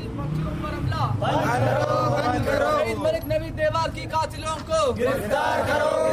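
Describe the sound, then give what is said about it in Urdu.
Crowd of demonstrators chanting slogans in support of their demands at a protest outside the Quetta Press Club, with many overlapping voices rising and falling in steady chant phrases over a continuous loud murmur. “Quetta press club کے باہر ہونے والے مظاہرے کے شرکا نے اپنے مطالبات کے حق میں نعرے بازی کی”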